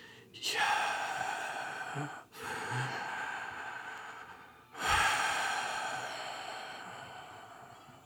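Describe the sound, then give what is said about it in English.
Slow, deep breathing used to voice the four-letter Hebrew divine name as breath: a few long, airy breaths swell and fade, with no words spoken. “it's the sound of breathing.”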